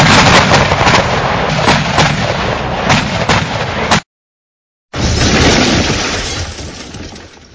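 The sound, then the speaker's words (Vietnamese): Explosions from a pack of explosives going off at a forest's edge: dense, roaring, sustained blasts with rumbling bursts, cut by a brief silent gap midway, then resuming loud before tapering off at the end. “Một tiếng nổ khác, một tiếng nổ khác nữa.”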